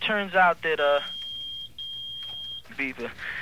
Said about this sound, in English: uh-oh, that's my battery. Oh, okay. Yeah, okay. It beeps.